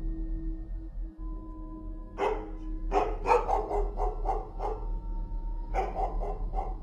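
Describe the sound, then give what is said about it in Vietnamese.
A dog barks outside, sharp repeated barks in two bouts, a quick run of several in the middle and a shorter burst near the end, over a low steady hum. “có tiếng động ở bên ngoài. Đó là tiếng con chó nhà nó đang cắn lên nhấm nha nhấm nhặng.”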